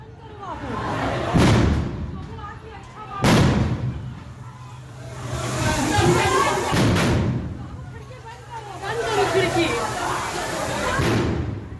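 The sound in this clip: Bombs exploding during a daytime street attack in Shivpur, Howrah: several sharp, loud blasts with heavy thuds, spaced irregularly, with people talking or shouting throughout between them.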